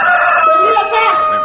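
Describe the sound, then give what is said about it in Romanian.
A rooster crows in one loud, drawn-out call with a rich, wavering tone, heard alone. “Cocoșul iar de glas și se zbate.”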